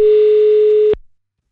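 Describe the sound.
Telephone ringing tone heard while calling back: a single steady, clear electronic tone lasting about a second, then cutting off into silence.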